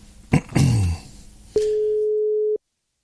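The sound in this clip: Telephone line sounds while calling someone back after a dropped call: a few clicks and clatters from the handset, then a single steady electronic tone lasting about one second before the line goes silent.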